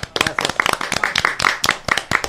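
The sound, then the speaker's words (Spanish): A small audience claps at the close of a live show. Individual hand claps stand out as sharp, irregular bursts, with many crisp slaps scattered unevenly across the couple of seconds. “Un gran aplauso, vamos a dar un aplauso. ¡Bravo!”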